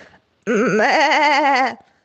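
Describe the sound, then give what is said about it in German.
A sheep bleats in a voice message, one long, loud, wavering bleat that holds steady and then cuts off, with a brief fainter sound just before it. “Das Schaf Elsa hat uns eine Sprachnachricht geschickt.”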